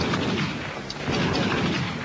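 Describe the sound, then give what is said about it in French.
Grenade blast and battle noise in a shooter video game: a dense, sustained, rumbling roar of explosions and gunfire that stays loud and even throughout. “Oh, il y en a un qui a balancé une grenade, je crois bien. C'est le petit vert derrière là.”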